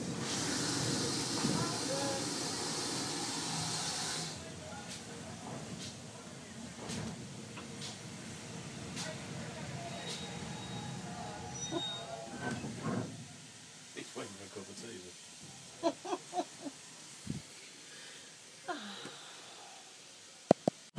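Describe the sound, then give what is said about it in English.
A train pulls into the station at Staverton: a loud broad hiss at first, then a steady low rumble, with a few sharp clanks and clicks near the end. “So we are now arriving in Staverton.”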